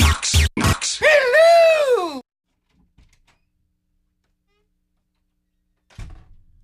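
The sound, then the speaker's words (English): Three quick, loud knocks on a door, followed by a long wavering vocal groan, then near silence and a brief soft thump at the end. “I hear you knocking. Knock three times.”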